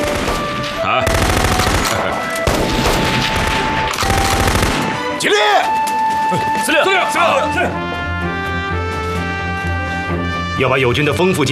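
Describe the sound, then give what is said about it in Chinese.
Live-ammunition gunfire rings out at a military shooting range during training drills. Loud, dense bursts of rapid shots fill the first few seconds, with voices talking throughout. “射击训练都用实弹，就不怕浪费吗？”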